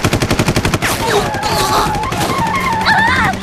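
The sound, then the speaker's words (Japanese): Gunfire aimed at a target opens with a rapid, loud burst of repeated shots, then gives way to sweeping, wavering tones that rise and fall. “詮索は後だ。バルファレロを撃て。マレフィキアに当てるなよ。”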